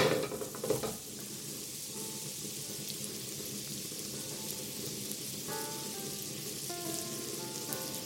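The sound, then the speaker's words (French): Pears stirring as they cook in a pan give a steady, dense sizzle with soft scraping from the stirring, louder in the first second and then even throughout, with no talk. “Alors, moi, je suis en train de remuer mes poires.”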